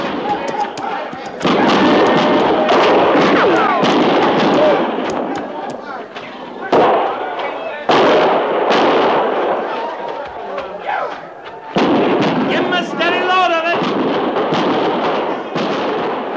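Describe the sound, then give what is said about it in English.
Gunfire and artillery crack and boom in a battle around a camp under attack, a dense barrage of many sharp bangs and heavy thumps. Voices can be heard amid the fighting. “Dig in! Dig in and fire!”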